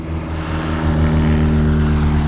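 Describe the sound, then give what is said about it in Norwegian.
Droning engine of a small propeller plane at an airfield runway, a steady harmonic hum that grows slightly louder partway through and holds. “Nå var det et lite småfly som har landet og tatt tå her I dag.”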